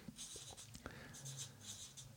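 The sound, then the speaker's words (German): A pen scratches on paper as someone writes a single word, producing faint, brief strokes and small scrapes in quick succession with no voice. “Also ich schreibe mal hier auf Vorbereitung.”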